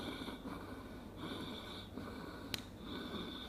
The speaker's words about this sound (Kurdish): ئەمە تەنها هەناسە هێنێت و هەناسە ئەبا هیچی تر ناکە دوو هەناسە و پەمپێ ئەبەم شێوەیە